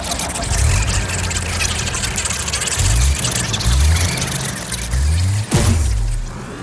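Engine of a Winnebago motorhome running: a loud, continuous low rumble with wavering low tones and a brief dip near the end.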